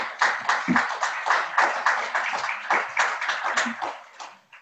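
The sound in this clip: Clapping from a lecture audience welcoming a speaker to the stand, a steady patter of many hands that fades away at the end.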